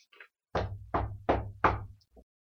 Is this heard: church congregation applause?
no

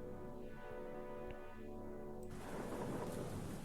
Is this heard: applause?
no

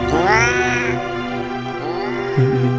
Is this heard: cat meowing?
yes

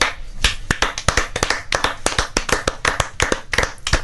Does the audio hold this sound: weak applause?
yes

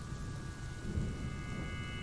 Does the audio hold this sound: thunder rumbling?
yes

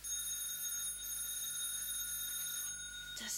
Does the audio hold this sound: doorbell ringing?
yes

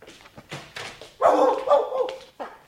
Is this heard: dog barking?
yes

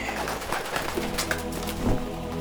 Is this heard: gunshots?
no

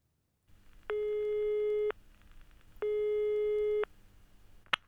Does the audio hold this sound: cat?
no

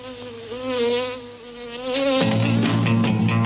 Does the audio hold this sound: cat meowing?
no

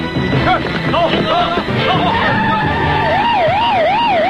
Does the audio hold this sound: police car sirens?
yes

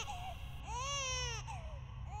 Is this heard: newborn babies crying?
yes

